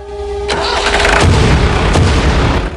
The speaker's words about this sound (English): Suddenly, lights blaze into life on the forklift, and it zooms along the factory floor, carrying a wooden crate on its forks.